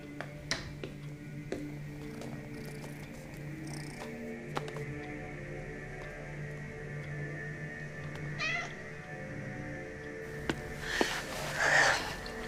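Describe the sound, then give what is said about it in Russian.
A cat that has gone over to a trash bin meows once near the end, fairly faint, over a low steady hum with a few soft clicks scattered before it. “Кот пошел к урне.”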